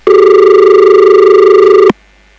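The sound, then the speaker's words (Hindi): A telephone rings on an incoming call that never connects: a single loud, steady electronic tone with a slight pulsing lasts nearly two seconds. It stops abruptly, leaving near silence. “लेते हैं ये phone call. Hello”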